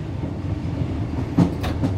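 A mountain rack railway train climbing uphill from the valley: a low, steady mechanical rumble with a few sharp clacks near the end, with no talk.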